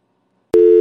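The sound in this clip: Telephone busy signal while placing a call: silence, then one loud, steady mid-pitched tone that starts abruptly about halfway through and holds to the end.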